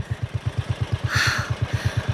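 A farm power tiller's engine runs with a rapid, even, low putt-putt chugging that keeps a constant pace throughout.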